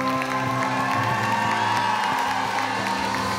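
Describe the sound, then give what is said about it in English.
A church audience shouting and cheering for Jesus, a sustained roar of whoops, raised voices and some clapping that stays loud and steady throughout. “Give Jesus the best shout you can.”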